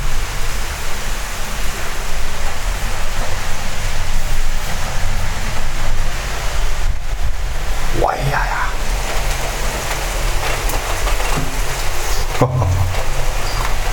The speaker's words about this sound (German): Oh, der Wind.